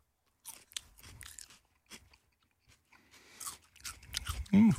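Crunching and chewing of a home-grown terrace chili pepper during a chili tasting: many irregular crisp bites and chews, fairly faint, with a short vocal sound near the end.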